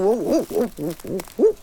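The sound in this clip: Hooting from an owl with small ear tufts: a series of rounded, mid-pitched hoots in quick succession, fairly loud and alone, with no talk.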